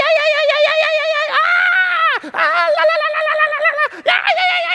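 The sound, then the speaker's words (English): A man imitates the loud scream he lets out going down a slide: a high, sustained, wavering vocal wail broken into three long bursts by two brief gaps. “and I just scream as loud as I possibly can.”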